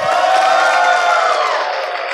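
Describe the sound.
A live audience at Glendale Baptist Church cheers and whoops, a loud, dense wall of crowd voices that holds steady and eases off slightly toward the end.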